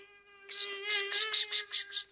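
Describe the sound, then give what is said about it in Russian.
An ordinary black fly buzzing, a steady droning hum with a rhythmic series of pulsing, buzzy bursts laid over it. “Это просто муха. Обыкновенная черная муха.”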